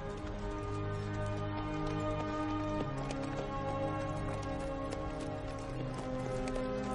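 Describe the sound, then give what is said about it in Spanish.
A horse cantering toward the listener in a Western setting: a quiet, rhythmic clip-clop of hooves that repeats steadily throughout. “se acerca cabalgando”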